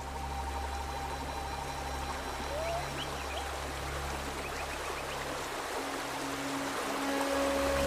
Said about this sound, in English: Water flows over stones into a tranquil pool surrounded by trees and bushes.